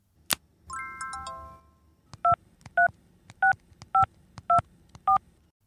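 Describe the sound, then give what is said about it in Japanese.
Telephone keypad tones as a number is dialed: six evenly spaced dual-tone beeps follow a sharp click and a brief chiming tone, with faint key clicks between them. “もう一回電話する。”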